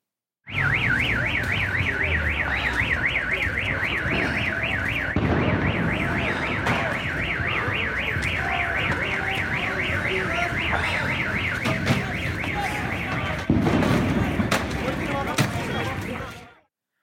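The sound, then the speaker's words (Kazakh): Car alarms wail in an Almaty street during the January unrest, a loud, fast warbling siren cycling up and down without pause for about sixteen seconds, with shifting noise from the street beneath. “көшедегі дауыстан көліктердің сигнализациясы шулап жатты”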